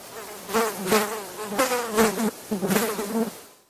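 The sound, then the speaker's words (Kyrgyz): A housefly buzzes in several separate bursts, a nasal, droning whine whose pitch wavers up and down, with short gaps between bursts. “Чымын чымын чымылдак, чыга калат дыңылдап, жумуш кылып жаткансып, мурдунан ырдап кыңылдап.”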